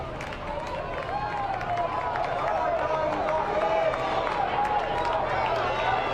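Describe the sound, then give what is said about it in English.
Loud, steady roar of a baseball stadium crowd at a playoff Game 3, many overlapping voices blending into continuous noise for the whole stretch. “This incredible Game 3 crowd still making a ton of noise.”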